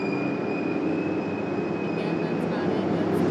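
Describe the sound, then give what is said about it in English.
A modern locomotive at Penn Station screeches in a sustained, high, whining tone over a dense, continuous rumble of rolling rail noise. The sound stays loud and unbroken throughout. “That's just screeching of another locomotive that is a very modern locomotive, so it's not the train that we're looking for here.”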